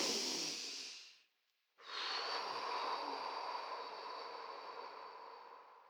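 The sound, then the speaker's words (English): Deep cleansing breaths: a long, airy breath tapers off into a brief silence, then a second deep breath starts abruptly and slowly fades, soft and alone. “let's take three deep cleansing breaths to bring us present.”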